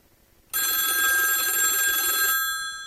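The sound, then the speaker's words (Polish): A telephone rings once after a moment of quiet. The bright, harmonically rich ring starts abruptly and holds loud and steady for nearly two seconds, then tails off. “Aha, czy mamy telefon? Sprawdźmy.”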